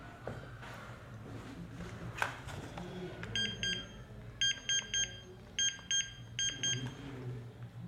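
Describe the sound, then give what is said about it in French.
A telephone rings electronically while someone is being called: several short bursts of rapid, high-pitched trilling beeps repeat over a low, steady background murmur. “Attends, je l'appelle.”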